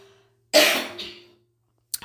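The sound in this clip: A single harsh throat clearing from someone with a very dry throat: a loud, raspy burst that tails off within about a second, followed by quiet.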